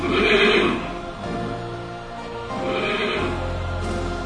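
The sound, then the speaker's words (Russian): A horse neighs briefly, calling toward a mare, in a loud, harmonic whinny near the start and another short whinny about two-thirds through, over a steady low background. “коротко заржал”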